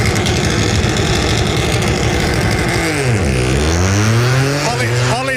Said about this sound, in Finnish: tuossa muuten lähtee ralliauto vieressä